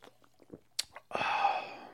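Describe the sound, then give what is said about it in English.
Sipping passion fruit sparkling water: a few faint mouth clicks and gulps, then a long, breathy, fizzy hiss that holds steady before fading. “That is so delicious. This is passion fruit LaCroix natural passion fruit essence sparkling water.”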